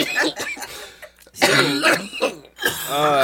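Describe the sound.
Coughing and throat clearing from someone with mucus problems: several rough, wet bursts in three clusters, separated by brief pauses.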